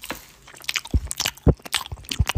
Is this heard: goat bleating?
no

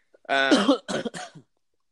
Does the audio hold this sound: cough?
yes

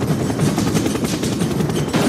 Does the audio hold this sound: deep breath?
no

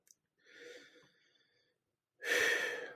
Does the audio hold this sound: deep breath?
yes

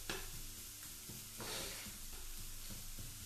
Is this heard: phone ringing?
no

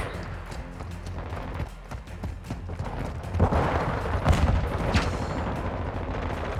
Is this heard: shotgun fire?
yes

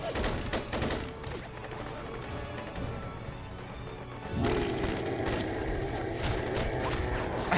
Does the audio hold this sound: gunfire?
yes

